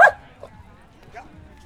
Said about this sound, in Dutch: Doe maar, ga maar blaffen.